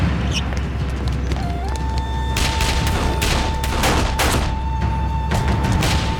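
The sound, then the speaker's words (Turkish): A fusillade of gunfire during an ambush scene in a drama, with many loud, sharp shots in rapid overlapping bursts filling the second half over a steady background tone. “fazla sıkma. Mermi biterse işimiz biter.”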